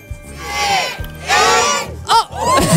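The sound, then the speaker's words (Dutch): A neighbourhood crowd cheers and shouts at the end of a countdown for a sign unveiling, loud voiced roars rising in a few separate surges with short dips between them. “Oh! Kijk dan. Proficiat applausje!”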